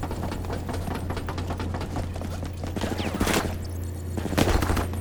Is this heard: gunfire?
yes